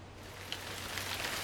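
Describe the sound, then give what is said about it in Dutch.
Rain pours from a small dark cloud onto an island, a brief, even hiss of falling water at a fairly low level. “Schitterend, het regent.”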